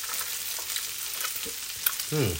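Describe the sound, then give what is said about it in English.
A savoury rice dish with lemon juice sizzles in the pan as a spoon stirs it through, giving a steady hiss broken by a few soft scrapes and clicks. “One thing I need to do is to put the lemon juice in. Let me just stir it through a little bit with my spoon, which had some paprika on it.”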